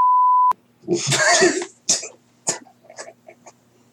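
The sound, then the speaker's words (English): A censor bleep over a word: one steady mid-pitched tone lasting about half a second, followed by a cough or throat clearing and a few soft vocal sounds. “I was wondering how long it's gonna take me till I had to bleep something.”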